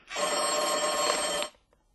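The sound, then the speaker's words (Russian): A telephone bell rings in one loud, continuous metallic burst of about a second and a half, then stops abruptly, leaving near silence. “Почему же этот телефон молчит? То трезвонит целыми днями, а то...”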